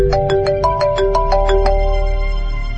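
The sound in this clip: A mobile phone ringtone announces an incoming call: a bright electronic melody of quick repeated notes that gives way to held, steady tones, loud and alone.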